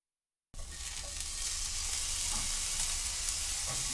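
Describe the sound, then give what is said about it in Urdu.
Shimeji mushrooms sizzle after being spread in a frying pan and sprinkled with salt, cooking uncovered over low heat. A steady, dense frying hiss starts abruptly and holds at an even level throughout. “شیمیجی کمبیوں کو frying pan میں پھیلا کر ان پر تھوڑا نمک چھڑک دیں۔ ڈھکے بغیر دھیمی آنچ پر پکائیں”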